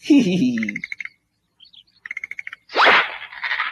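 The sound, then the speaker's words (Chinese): Frog calls in a Cantonese animated series: a low throaty croak opens, followed by a few high chirps and a quick run of short pulsed calls, then a louder rasping burst with scratchy sounds trailing at the end. “哇，识跳噶喎，青蛙。”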